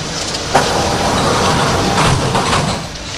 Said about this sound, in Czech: ukončete výstup a nástup, dveře se zavírají.